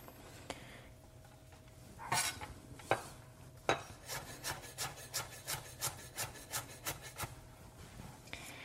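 A knife minces ginger, scallion and garlic on a cutting board: a few separate sharp knocks, then a steady run of many quick, light, evenly spaced chops, quiet throughout.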